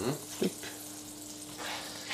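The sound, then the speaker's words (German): Olive oil and butter sizzle in a frying pan with a soft, steady hiss, and brief voices can be heard over it. “jetzt machen wir da einfach ein bisschen einen Schuss Olivenöl rein. Mhm. Genau. In die Pfanne. In die Pfanne. Genau, dann haben wir ein bisschen Butter dazu.”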